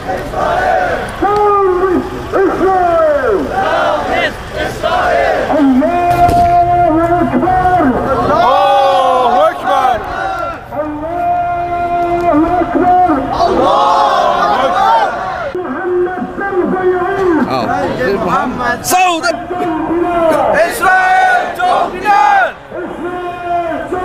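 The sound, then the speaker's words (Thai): Crowd of Muslim protest marchers outside the Israeli embassy in Thailand, guarded by over a hundred police: loud chanting and shouted slogans rising and falling in repeated waves, with a dense murmur of voices underneath. “และขณะนี้กลุ่มพี่น้องมุสลิมในประเทศไทยก็ได้เคลื่อนขบวนมาถึงหน้าสถานทูตอิสราเอลแล้วนะครับท่ามกลางการอารักขาของเหล่าตำรวจกว่า100นายเราไปชมภาพบรรยากาศครับ”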